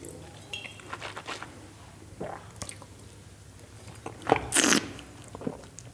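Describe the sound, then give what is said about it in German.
A small sip of wine taken during a tasting: a brief wet slurp near the end, preceded by a few soft mouth and handling sounds, with no talk. “Ich werde jetzt auch ein ganz kleines Schlückchen nehmen, natürlich, ja.”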